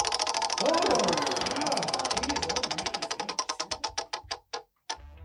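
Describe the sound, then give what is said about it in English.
A game show prize wheel spins with a rapid run of ticks that slow and spread out before clattering to a stop, with a final lone tick; voices are heard near the start. “so let's bring out the random wheel of games. Ooh. Let's give it a spin.”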